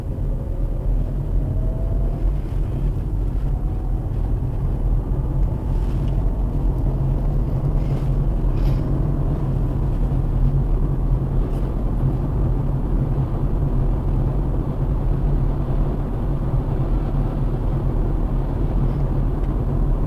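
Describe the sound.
Steady low engine and road drone from a car setting off on a drive home. A continuous loud rumble holds evenly for the whole stretch with no talk.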